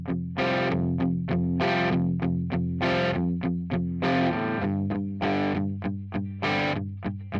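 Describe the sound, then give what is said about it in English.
A heavily distorted electric guitar, a vintage Gibson SG through a 50-watt Marshall head using both channels, chugs an F sus2 chord moving to G sus4 in steady eighth notes. Loud, grinding palm-muted hits alternate with longer ringing chords. “there's this, grinding second verse guitar part. It's an F sus 2 chord that's chunked into a G sus 4 chord in eighth notes.”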